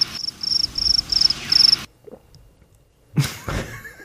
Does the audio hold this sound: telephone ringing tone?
no

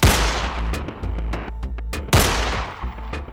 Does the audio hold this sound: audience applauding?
no

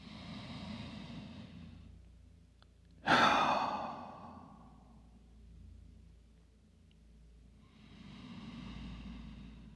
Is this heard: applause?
no

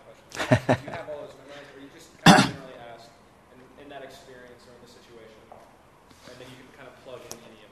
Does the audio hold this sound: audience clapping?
no

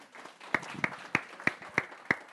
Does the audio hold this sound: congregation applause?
yes

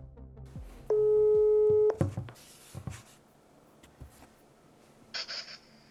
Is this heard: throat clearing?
no

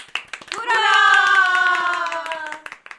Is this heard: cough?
no

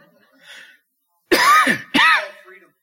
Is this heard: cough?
yes

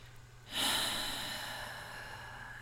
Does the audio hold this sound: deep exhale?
yes

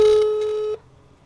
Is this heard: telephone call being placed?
yes

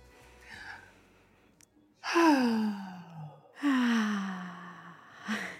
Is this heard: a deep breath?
yes

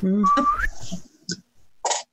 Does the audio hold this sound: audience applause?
no

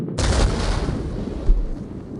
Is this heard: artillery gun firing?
yes

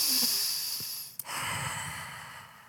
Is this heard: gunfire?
no

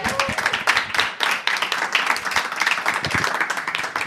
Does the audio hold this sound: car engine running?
no

